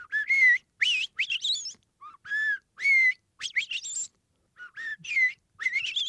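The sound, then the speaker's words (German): Song of a Eurasian blackbird: several clear, fluting whistled phrases, some ending in higher twittering flourishes, broken by short pauses and heard alone. “Unterm Strich beeindrucken so selbst einzelne Vögel mit einem erstaunlichen Lautrepertoire, zum Beispiel die Amsel. Die hat nicht nur ihren Gesang.”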